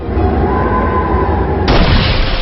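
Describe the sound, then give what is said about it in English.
A wind attack effect from a turn-based monster battle video game, a continuous broad rushing noise that suddenly brightens and grows fuller about two-thirds of the way through, then holds steady to the end. “Skirial used Wind Force.”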